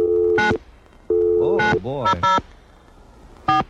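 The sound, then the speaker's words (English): A telephone busy signal sounds as loud interrupted tones in on-off bursts, with a brief warbling tonal passage between them, and another tone burst closes the sequence. “Oh, it's busy. Fast busy. Isn't that a fast busy? It's a medium. That was a slow busy.”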